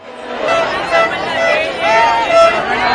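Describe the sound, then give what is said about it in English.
Crowds cheer the removal of the border fence between southern Spain and Gibraltar and the end of border controls. Many overlapping voices make a loud, sustained, rising and falling babble. “That's the sound of crowds cheering. No, not Spain's victory at the Football World Cup, but the removal of a border fence that separated southern Spain from the British territory of Gibraltar for 118 years and the end of border controls.”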